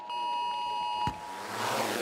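A nationwide warning-day alert tone sounds as a steady, bright electronic beep with ringing overtones. It holds for about a second, then cuts off into a broad, rising hiss.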